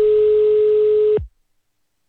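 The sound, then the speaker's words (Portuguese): A ringback tone plays on an outgoing telephone call as one steady beep at a single pitch for just over a second. It then stops abruptly into silence, and another sound begins right at the end. “Escuta, tá chamando.”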